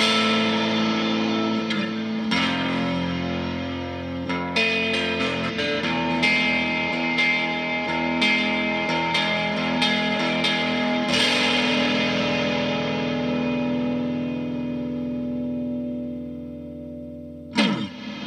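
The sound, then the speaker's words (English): A 1970s Gibson L-5S electric guitar plays through a 1981 distortion pedal set to its lowest setting, giving sustained chords with light grit and a lingering ring, re-struck a few times, then one sharp strum near the end. “You hear what I'm doing there? Putting a little dirt on it? Yeah, I have the 1981 DRV pedal set to as low as it will go.”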